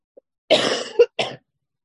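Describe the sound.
Coughing from someone suffering bad allergies: three harsh, throaty bursts in quick succession, the first longest, heard alone with no talk.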